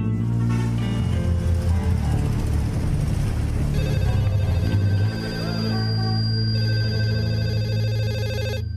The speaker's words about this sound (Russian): В 9:15 утра телефонная трель вырвала Антона Самарина из сна.